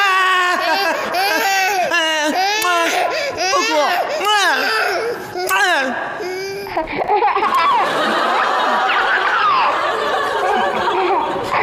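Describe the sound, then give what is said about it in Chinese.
An infant cries loudly in repeated harmonic wails that rise and fall, broken by short sobbing gasps, then settles into a longer, rougher stretch of crying. “宝贝儿不哭、哦、爸爸不是叔叔，哎呀，陌生人不哭，宝贝儿不哭，一会儿你再哭。”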